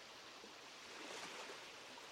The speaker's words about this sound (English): Allow the soothing sound of the waves to wrap around you, lulling you,